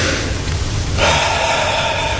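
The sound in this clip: A deep breath is taken during a medical examination of fitness for service at the front. The single loud, airy breath is heard clearly, with no talk over it.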